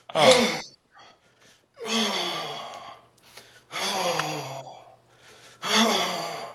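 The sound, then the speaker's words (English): Four forceful, voiced exhalations during a low horse stance exercise with every muscle flexed, each a strained breath out lasting about a second, separated by short near-silent pauses with faint breathing. “you flex every muscle in your body, and you breathe out. So you go.”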